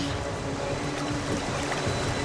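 Oars dip and paddle a small boat through water, giving a faint, continuous slosh and trickle with no clear separate strokes and no talk.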